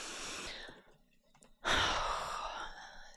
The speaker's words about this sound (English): Big deep breath right there.